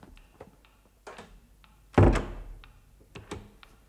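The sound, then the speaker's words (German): Door bolt slid shut, a single heavy thunk near the middle with a short decay, set among a few light clicks and faint knocks before and after. “Und du schieb den Riegel vor. Ja, den Riegel.”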